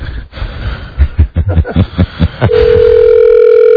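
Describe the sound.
A telephone dial tone sounds as a call is placed, a loud, steady, unbroken electronic hum that follows a few brief bursts of chuckling.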